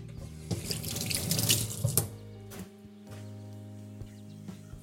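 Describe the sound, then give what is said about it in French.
Water runs into a kitchen sink as cooked, salted lentils are drained. A dense, splashing rush lasts about two seconds and then stops, leaving a few faint drips and light clinks. “Et ensuite, je vais les égoutter.”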